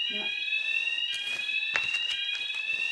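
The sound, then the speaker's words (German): A fire alarm squeals in an apartment with a continuous shrill, high-pitched tone that stays loud and unbroken throughout. A voice is briefly heard at the start. “Ich bin in der Wohnung 8 in der Nordsee, Liebe, und werde hier von einem quietschenden Alarm geweckt seit eigentlich 12 oder 13 Minuten. Es kommt niemand.”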